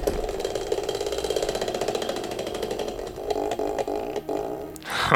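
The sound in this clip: A spinning game wheel ratchets with rapid, evenly spaced clicks that run continuously for several seconds, then turn more irregular and knocking toward the end, with no talk.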